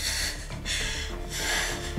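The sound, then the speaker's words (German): A patient's deep breath in during a hospital examination for a suspected pulmonary embolism, a loud rushing inhalation in uneven surges over steady background noise. “Und jetzt atmen. Ein.”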